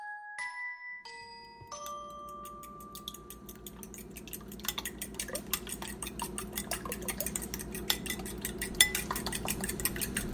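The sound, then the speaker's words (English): Kitchen clatter while a breakfast burrito is being cooked: many quick metallic clinks and scrapes of utensils against pans and dishes, fairly soft and irregular, building in density over about ten seconds. “This day's adventure started off how many, many adventures start off, with the breakfast burrito in my kitchen, cooking it up, waiting for Andrew to get to the house.”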